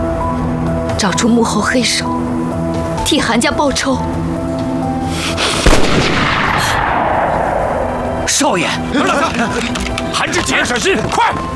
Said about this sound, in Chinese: 等他们抬头，咱们就开枪。